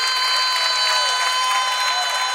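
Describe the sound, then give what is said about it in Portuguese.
Audience applause fills the stretch as a loud, dense, continuous wash of clapping, with steady sustained tones held underneath and no breaks. “aplauze pentru noi.”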